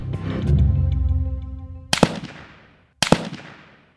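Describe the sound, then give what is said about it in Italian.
Gunshots fired through a blanket at a sleeping couple in bed: a fading tonal musical swell, then two sharp, loud bangs about a second apart, each falling off quickly into a short decay. “Rapidamente il killer appoggia su di loro una coperta e spara.”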